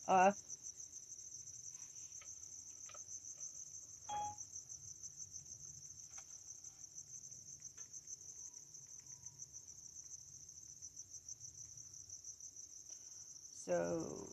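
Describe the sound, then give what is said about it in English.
Crickets chirping in a continuous, high, shimmering trill that holds steady and faint throughout, with brief low sounds at the very start and end. “What, don't you like the crickets? I think the crickets are pretty rich in them.”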